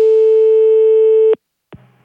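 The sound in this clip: Telephone busy tone heard after a call is hung up: a steady, loud electronic tone holds for just over a second and cuts off abruptly, followed by a short silence and a brief soft click and low noise.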